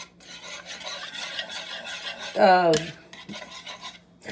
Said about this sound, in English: You want to dissolve your egg yolks. So I'm just stirring with a wire whisk.